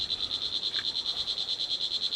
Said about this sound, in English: whoa, these cicadas